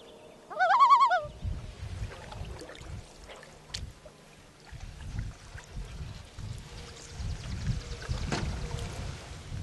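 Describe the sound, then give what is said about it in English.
Common loons near a floating nest platform give one loud, brief, wavering tremolo call, followed by a low, uneven rumble like a boat motor that continues to the end. “Often the incubating loon will leave the nest and tremolo and display to distract us.”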